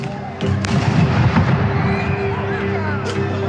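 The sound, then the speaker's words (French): A few dull pops of tear gas grenades being fired in the distance during a street protest with riot police, scattered under a continuous rumbling crowd noise with indistinct voices. “Au loin, on aperçoit des tirs de grenades lacrymogènes.”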